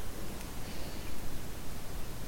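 Paper entries, over a hundred of them, rustle in a bag as a winner is drawn for a British wool giveaway. The dry, steady rustle goes on without pause, rising and falling slightly, with no voices.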